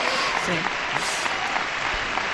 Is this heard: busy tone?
no

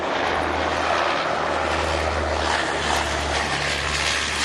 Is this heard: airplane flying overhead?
yes

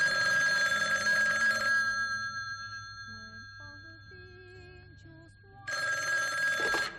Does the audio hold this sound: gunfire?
no

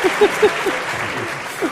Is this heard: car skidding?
no

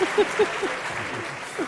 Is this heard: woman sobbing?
no

